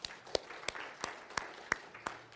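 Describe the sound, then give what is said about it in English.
A church audience gives faint applause, heard as seven sharp, evenly spaced claps in a steady rhythm. “Can we give God a hand?”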